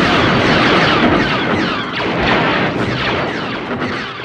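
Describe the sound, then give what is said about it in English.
Dense metallic zaps and booms from a taut guy wire struck with a wrench and picked up by a contact microphone in a desert, used as blaster effects. The bursts overlap in a loud, continuous barrage. “took a contact microphone out and put it on the wire and started hitting it with a wrench. And what he got were the bass of the blaster sounds for Star Wars.”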